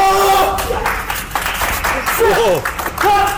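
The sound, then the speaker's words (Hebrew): A group clapping on command during a training drill, bursts of applause mixed with loud talk and shouting. “כפיים!”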